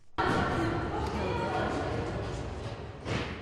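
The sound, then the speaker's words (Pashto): A ball bounces on a court as Afghanistan's wheelchair basketball team for people with disabilities practises, with continuous busy court noise and no clearly separate bounces. “د افغانستان د معلولیت لرونکو خزو ویلچر باسکټبال ټیم خپل تمریناتي لوبې کوي.”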